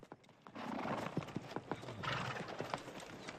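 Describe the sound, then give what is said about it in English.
Horses' hooves clop unevenly as riders on horseback come down a bank, many overlapping beats with a whinny breaking through. “the smartly dressed men on horseback ride down the bank”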